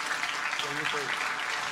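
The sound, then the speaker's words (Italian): Applause for the head of Civil Protection in Liguria, a broad patter of many hands under a speaking voice, holding steady through the short stretch. “allora facciamo un applauso anche”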